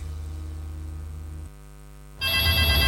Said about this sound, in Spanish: contesta tu citófono, po, que estoy ocupada.